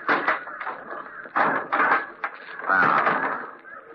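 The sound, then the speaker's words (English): The cover of a large trunk is opened, giving a few bursts of wooden creaking and knocking, with a longer strained creak near the end. “Now, take a look at this. Wait till I open the trunk cover.”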